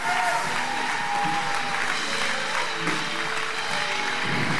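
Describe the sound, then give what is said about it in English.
Audience applause at a church service greeting a guest speaker, dense and steady clapping that fills the whole stretch, mixed with crowd noise and a few voices. “Put our hands together with a great C3 powerhouse.”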